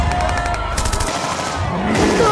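Gunfire aimed at an ape, heard as a rapid, dense burst of loud shots that runs the whole length with little letup.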